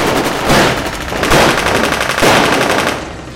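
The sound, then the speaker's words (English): Rapid machine-gun fire is aimed at a visitor from another world: loud, dense bursts of rattling shots that run almost without pause and swell and ease in a few waves. “Shoot him!”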